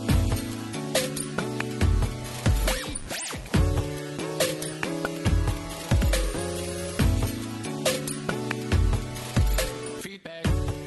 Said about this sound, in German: Toll, guter Jingle.